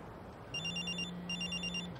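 A telephone ringing with a faint electronic warbling trill in two bursts over a steady low tone, with no voices.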